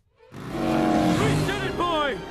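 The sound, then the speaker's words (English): A motorbike engine roars as it zooms down the side of a cracking dome. The sound is loud and sustained with a wavering pitch, and voices cry out over it near the end. “The cracks reach the bike as Homer zooms back down the side of the dome.”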